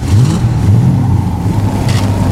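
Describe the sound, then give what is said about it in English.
A vehicle engine revving as the throttle is opened in bitter cold with a wind chill near minus 50, a loud, continuous low roar with brief upward swells in pitch early on, then a steady drone. “Rourke let out the throttle, starting away from the German aircraft”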